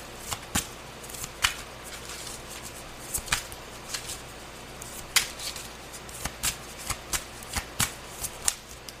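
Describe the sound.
Playing cards are handled and drawn from a deck during a card reading: many sharp, papery snaps and flicks in an irregular rhythm, fairly quiet, with no talk.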